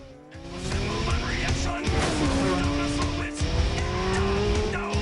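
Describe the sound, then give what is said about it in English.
Motorbike engines roaring as a rider speeds off in pursuit of another during a fight: loud, continuous revving with pitch sweeping upward, plus a sharp whine, and no pauses throughout. “China leaps atop her bike and swings a kick at Shane. She speeds after Shane.”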